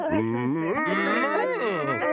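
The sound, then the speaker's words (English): A person imitates a bison's moo with a low, drawn-out voiced lowing that wavers in pitch and lasts about two seconds without a break. “Moo? Well, kind of a moo and a moo. That's like a manly moo, maybe?”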